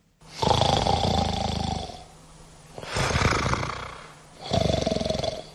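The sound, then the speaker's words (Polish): A male actor imitating snoring with his voice: three long, loud, rasping snores separated by short quiet pauses, each a rough, growling breath. “Ale na scenie umiejętność chrapania może się przydać”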